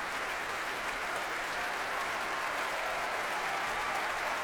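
Dense audience applause mixed with foot stamping at an orchestral Proms concert as the conductor returns to the platform, a loud, steady, continuous roar of clapping that never lets up, with no voices heard.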